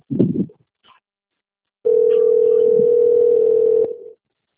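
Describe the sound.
Telephone dial tone heard while placing a call: after a brief noise and a pause, a single steady mid-pitched tone holds for about two seconds, then cuts off.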